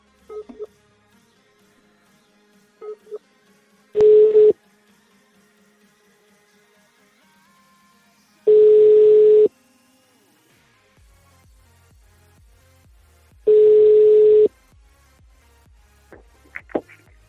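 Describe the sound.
Telephone dialling: a few short keypad beeps, then three long, steady tones of about a second each, evenly spaced with quiet gaps between them, and faint clicks near the end.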